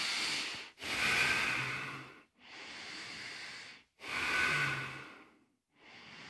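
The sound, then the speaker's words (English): Ujjayi breathing during a yoga flow: deep, hissing breaths drawn through a narrowed throat. Several long inhales and exhales follow in a slow, steady rhythm with brief silent gaps between them. No talk. “You can kind of hear I'm utilizing that Ujjayi breath mechanism.”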